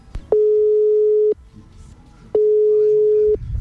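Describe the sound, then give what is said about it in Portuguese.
A telephone ringback tone sounds on an outgoing call: two long, steady, mid-pitched tones, each lasting about a second, separated by a pause of similar length, with faint background noise in between. “Tá chamando, hein? Se tá chamando é porque tem sinal, né?”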